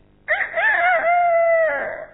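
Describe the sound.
A human voice imitates a hen reacting to a cat, one sustained, wavering squawk of about two seconds, loud, high and strongly tonal, sagging slightly in pitch as it fades.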